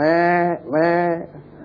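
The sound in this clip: A human voice imitates a sheep bleating, evoking sheep fighting and butting like goats. Two drawn-out, nasal bleats with wavering pitch come in quick succession, followed by quieter breathy noise.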